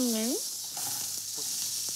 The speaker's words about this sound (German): Das wird jetzt eben mal schnell angebraten.